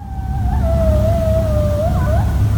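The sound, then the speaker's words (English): Coyotes calling near a county fairgrounds in Goshen: one long, wavering howl that holds a steady tone, wobbles slightly in pitch and ends in a few quick yips, with a fainter higher tone beside it over a constant low rumble. “That's the sound of coyotes calling from the Elkhart County 4-H Fairgrounds, recorded at nearby Fiddler Pond Park in Goshen.”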